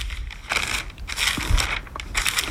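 Bible pages being flipped in a search for the Book of Amos, a continuous papery rustle and crinkle with a few brighter swishes as pages turn.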